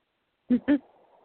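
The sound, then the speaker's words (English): A pet bird squawks twice in quick succession, both calls short, harsh and fairly loud, followed by a faint, low, steady hum. “Who's squawking out there? Why are you squawking, Squeaker?”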